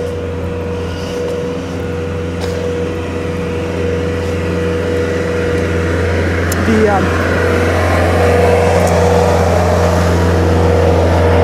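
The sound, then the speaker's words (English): Steady low engine drone of a small Bobcat skid-steer loader driving nearby, a continuous rumbling hum that grows slightly louder toward the end. “There's a guy driving a little... Bobcat.”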